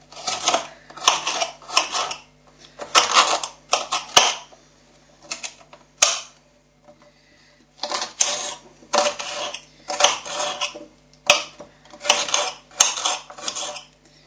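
Knife chopping an onion into very small pieces on a board, ready to go into minced beef: quick bursts of crisp, rapid chops separated by short pauses, repeated many times, with no talking.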